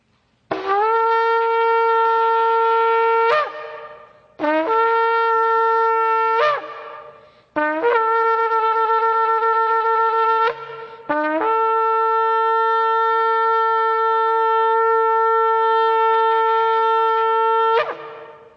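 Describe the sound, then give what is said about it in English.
Shofar blasts at a sacred prayer gathering: three calls of a few seconds each, then one long sustained note, every blast a bright, brassy, buzzing horn tone that ends with a quick upward flick. “The sacred gatherings of Israel were heralded by the sounding of the shofar, and this is a sacred gathering.”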